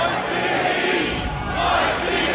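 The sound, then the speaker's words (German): A live audience shouts together as the crowd in a staged Passion play, answering Pontius Pilate as he sentences Jesus. The dense, loud roar of many voices holds steady throughout. “Auch stark Henning Baum als Pontius Pilatus, der Jesus Todesurteil spricht und bei dem das Live-Publikum in die Rolle der Menschenmenge schlüpft.”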